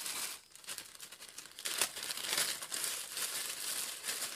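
Paper slips with names on them rustle and crinkle inside a bag during a drawing, a dry, continuous crackling with a few louder bursts and no voices.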